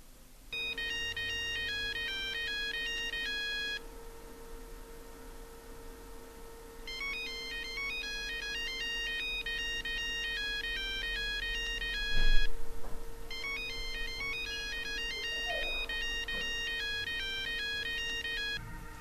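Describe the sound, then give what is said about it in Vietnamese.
An iPhone ringtone plays a bright, beeping electronic melody in three repeated bursts, separated by short pauses, loud and clear with no talk. “Thế rồi cái tiếng nhạc chuông điện thoại của cô lại vang lên”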